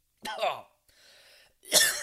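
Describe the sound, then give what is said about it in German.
A person coughs harshly, clears their throat with a softer rasping rumble, then lets out another loud cough. The three bursts are separated by short silences. “Entschuldigung, hab kurz einen Frosch in den Hals gekriegt”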